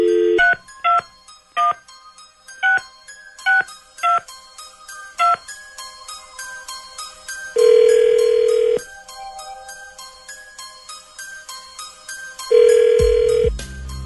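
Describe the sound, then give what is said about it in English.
Touch-tone keypad beeps as a telephone number is dialed at random, an uneven series of short, sharp tones, followed by two long, steady ringback tones separated by a silent pause. “Dialing at random.”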